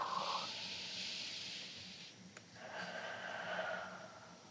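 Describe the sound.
A deep breath during a guided relaxation exercise: two long, soft, breathy rushes of air separated by a brief pause, steady and fairly faint, with no talking.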